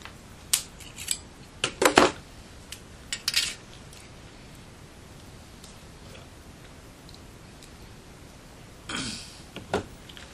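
Scissors snipping along an edge, a quick run of sharp, crisp clicks, then a long quiet pause before a few more snips near the end.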